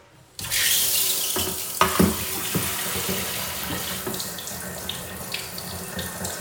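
Hot water runs from a tap as it is adjusted on a cold day before washing. A steady, bright rush of water starts suddenly and continues throughout, with a few brief knocks partway through and no voices.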